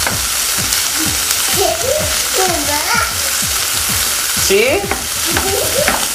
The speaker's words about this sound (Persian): سوسه که سرخ کردیم و بقیهش هم داریم سرخ میکنیم.